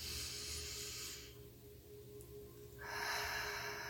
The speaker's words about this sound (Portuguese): Faça esse exercício. Puxe o ar pelo nariz.